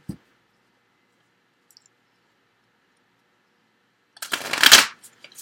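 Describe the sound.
Tarot cards are shuffled before one is drawn: a short, crisp riffling burst near the end after a long near-silence, opened by a faint click.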